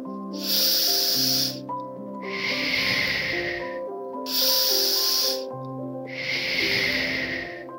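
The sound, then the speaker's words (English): Slow, big deep breaths taken to ease anxiety: two full cycles of long, airy hissing inhales and exhales, loud and rhythmic over soft background music. “To make these feelings disappear, I would take a few big deep breaths like this.”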